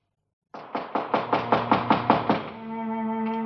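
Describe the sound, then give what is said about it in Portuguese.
Knocking on a door: a quick, even run of sharp wooden raps at a steady rhythm, followed by a sustained musical tone. “Quem é? Quem está batendo?”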